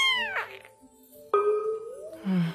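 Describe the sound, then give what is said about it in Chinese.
A big, fat house cat weighing nearly 20 jin meows: a few drawn-out meows with sliding, wavering pitch, moderately loud and without talk. “陈星抱起花丽丽，一只接近20斤的大肥猫。”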